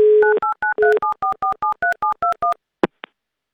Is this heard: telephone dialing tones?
yes